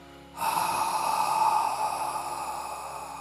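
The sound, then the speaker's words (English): Ujjayi breathing done with the mouth open, like fogging a mirror: one long, steady breathy hiss that starts abruptly after a short pause and holds evenly to the end, with no talk. “if you're not familiar with ujjayi breath, you could always open your mouth while you're learning it and make the sound as if you were fogging a mirror.”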